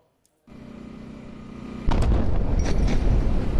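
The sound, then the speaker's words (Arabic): An Israeli airstrike on the town of Mansouri in the Tyre district of southern Lebanon lands as a sudden deep, heavy boom. It follows a steady low rumble and turns into a loud, sustained roar that lasts to the end. “غارة، غارة على الهواء يا جماعة، غارة. الآن غارة ثانية على بلدة المنصوري”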